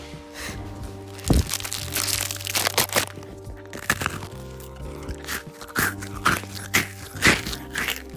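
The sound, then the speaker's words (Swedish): Crisp crunching and crackling as an Oreo cookie is opened and eaten on a sofa, a run of many sharp, irregular bites and crinkles with no talking. “Om ni vill höra hur det låter när jag äter en Oreo så ska ni faktiskt få höra det nu. Det här är lite ASMR när han öppnar det.”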